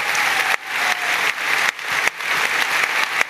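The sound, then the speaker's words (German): Audience applause in a hall during a live evening stage show, loud, thick clapping from many people that keeps going throughout, broken by a few brief dips in level. “Ein Applaus an dieser Stelle, dass sie sich heute Abend bereit erklärt haben.”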